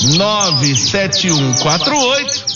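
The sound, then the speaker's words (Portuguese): Birdsong with rapid, repeated high chirps and trills, loud and continuous, over a lower, voice-like tonal sound. “E eu quero saber que passarinho é esse que está cantando aí, ó. Que passarinho é esse?”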